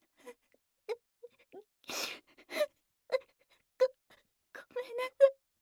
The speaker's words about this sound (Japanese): ごめんなさい、いきなり泣いたりして、なんだか胸がいっぱいで嬉しくて、急に涙が出ちゃって。